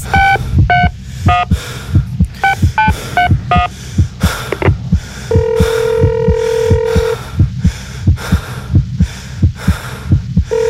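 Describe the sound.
A telephone is dialed with touch-tone beeps, then one long steady ringing tone sounds while a caller waits for an answer, all over a steady, heartbeat-like thumping pulse.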